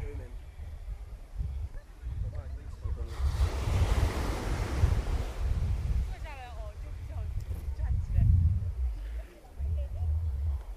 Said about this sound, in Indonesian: Mantep nih dengan suara airnya nih, makin jelas nih suara air.